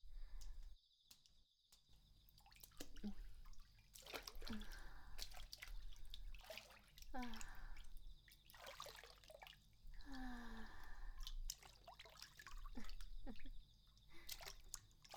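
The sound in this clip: Water drips into a hot bath, a few distinct droplet plops with falling pitch, spaced seconds apart over a steady hiss of running water.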